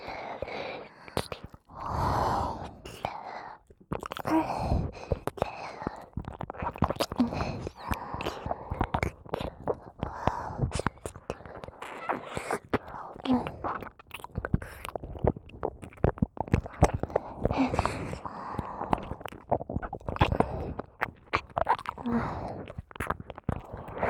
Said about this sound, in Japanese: ご主人様、私はこっちのお耳舐めさせていただきますね。